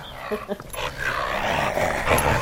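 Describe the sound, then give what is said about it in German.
A female dog growls while biting hard on a stick in a garden. Low, rough growls mix with crunching and scraping of the stick in a continuous, fairly loud stretch of noise. “Im Garten der Autorin beißt Hündin Sally leidenschaftlich auf einen Stock.”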